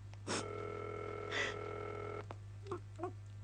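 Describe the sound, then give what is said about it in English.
A telephone line rings as an operator puts the call through: a steady, buzzy harmonic tone holds for about two seconds, with a couple of breathy bursts over it, then soft scattered sounds. “We are ringing Ordway 3787 for you, caller.”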